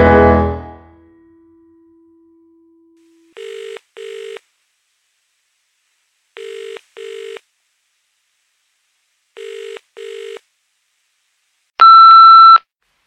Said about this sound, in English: Let me talk to the answering machine. I can cope with the answering machine. I'm a friend of the answering machine.